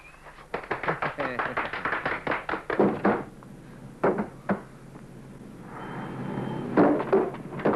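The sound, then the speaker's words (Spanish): A door being broken down in a 1983 action film: many rapid heavy thuds and cracking impacts come in a dense burst, followed later by a few scattered bangs and knocks. “¡Tiren abajo la puerta!”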